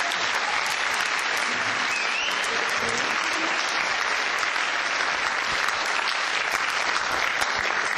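Audience applauding as an actress is introduced at a gathering, a sustained, dense, even round of clapping that keeps a constant level for the whole stretch.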